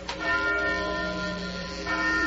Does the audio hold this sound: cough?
no

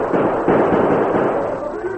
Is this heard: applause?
no

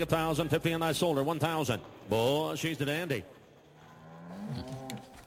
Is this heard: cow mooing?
yes

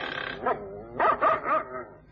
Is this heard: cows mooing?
no

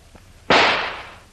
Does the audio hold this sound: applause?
no

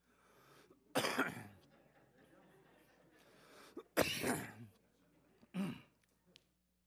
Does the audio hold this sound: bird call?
no

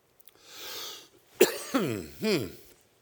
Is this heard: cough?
yes

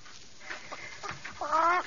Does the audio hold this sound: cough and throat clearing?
no

